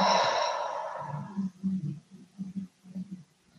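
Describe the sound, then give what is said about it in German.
A long breath out through the mouth during a guided breathing exercise at a workshop, a breathy rush that starts strong and fades over about a second and a half, followed by several soft, low murmuring sounds. “Noch einmal so bis in den Bauchnabel einatmen. Und durch den Mund wieder ausatmen.”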